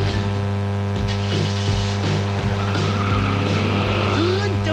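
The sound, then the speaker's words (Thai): A car engine left running after being started produces a steady low, droning hum with an even level throughout and a few faint intermittent sounds over it. “สตาร์ทรถทิ้งไว้ก่อนเดี๋ยวขึ้นไปเอาของออฟฟิศแป๊บนึง”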